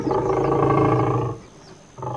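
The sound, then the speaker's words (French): A lion's deep, loud roar: a sustained, rumbling harmonic growl lasting over a second, followed by a brief lull before a second roar begins. “Il ouvrit grand la gueule et poussa un rugissement qui plia les baobabs, souffla le sable en tornade et souleva un typhon dans l'étang.”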